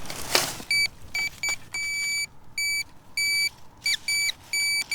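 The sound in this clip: A metal detector signals non-ferrous metal with many short, bright electronic beeps of varying length at a steady pitch. The beeps are stuttering and irregularly spaced, and a brief noisy burst comes at the start.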